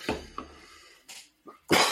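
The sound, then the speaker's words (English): A few harsh coughs from someone with a bronchitis-like chest complaint: short, breathy bursts separated by quiet gaps, ending with the loudest cough. “You will see me turn around and cough occasionally. Sorry, that's the Benidorm bronchitis.”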